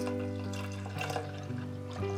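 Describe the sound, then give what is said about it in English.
Liquid pouring as unsweetened soy drink made only from soybeans goes into a container, a steady trickling splash over a constant low tonal hum. “nothing else than soybeans, no added guar gum or sugars or anything. One shakes it well and then opens it up and then pour it in.”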